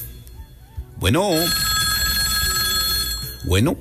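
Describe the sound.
A telephone rings for a radio phone-in call, with warbling bursts of ringing joined by a sustained, bright tone, fairly loud.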